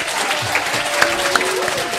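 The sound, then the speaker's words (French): Applause for a correct answer in a quiz game: dense, sustained clapping at an even loudness throughout, with a faint steady tone beneath. “On peut les applaudir.”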